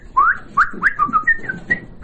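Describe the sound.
An elderly man whistles a quick series of short, clear melodic notes, several with a brief upward swoop, forming a bright, birdlike run that is loud and unaccompanied.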